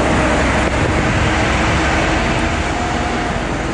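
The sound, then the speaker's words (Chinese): Military vehicles driven by soldiers pull out of a camp at the start of a rocket force communications drill, making a loud, continuous rumble of engine and road noise with no break. “通信对抗演练开始后，官兵们驾驶车辆刚刚驶出营区”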